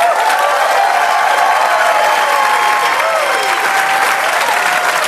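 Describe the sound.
Studio audience applause and cheering to welcome a guest: a loud, dense, sustained roar of clapping that stays even throughout, with shouts rising above it.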